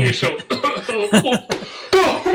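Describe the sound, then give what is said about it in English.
Coughing into a microphone: a few short, harsh, breathy bursts mixed with throaty vocal sounds, fairly loud and close-miked. “Excuse me. Sorry for coughing into the microphone there.”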